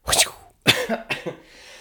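A man coughs in three rough, forceful bursts separated by short pauses, the last ones shorter and more throaty, with no other sound around them.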